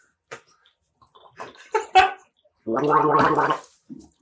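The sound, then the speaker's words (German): Gulps of a small, refreshing Berliner beer: a few brief wet swallowing sounds, then a longer throaty gurgling swallow and one short final gulp. “Und wir trinken gerade einen erfrischenden kleinen Berliner Lüftchen, würde ich fast sagen.”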